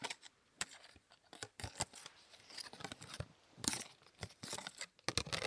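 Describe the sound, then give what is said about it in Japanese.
Scissors cut through a plastic card, giving many sharp, crisp snips at an irregular pace, fairly quiet and with no voices. “まずはプラスチック系カード、これいい音するんじゃない。”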